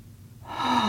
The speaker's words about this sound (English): And when you feel ready, I invite you to take a deep breath.